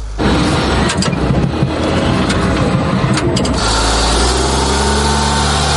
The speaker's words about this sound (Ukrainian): Попри свої чималі розміри, «Хаймерс» легко набирає швидкість, і це ще пересічною місцевістю.